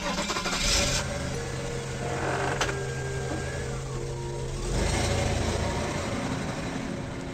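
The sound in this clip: A car engine starts and the car drives off, a broad, steady rumble that swells louder toward the end, with no voices.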